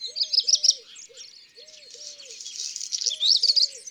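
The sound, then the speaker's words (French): Black redstart song: bright, scratchy high warbles in quick repeated phrases that run almost without a break, with a few low, hollow tonal notes repeating underneath. “le chant d'un serin, le chant du rouge-queue-noir,”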